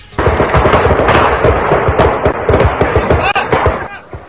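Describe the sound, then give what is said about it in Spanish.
Bursts of gunfire from long guns ring out across avocado orchards, a dense run of many sharp cracks that keeps going almost without pause, with voices partly heard underneath. “mientras escuchan las ráfagas de armas largas en las huertas.”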